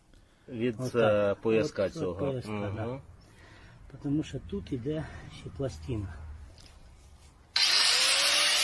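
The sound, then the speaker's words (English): An angle grinder, used by a Ukrainian partisan fighter, cuts in abruptly near the end as a loud, harsh, high-pitched whine after a stretch of talking voices. “That's right. Angle grinder, baby. Angle grinder and Crocs.”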